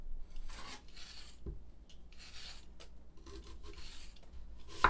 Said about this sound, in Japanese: はい、それじゃあ先に玉ねぎ切っちゃいますね。